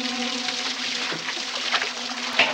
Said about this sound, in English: he turns on the water in the bathtub, takes hold of the string mop, and wipes it around the inside of the tub.